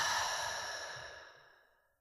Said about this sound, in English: Inhaling fully into belly, chest, head, exhaling, letting go.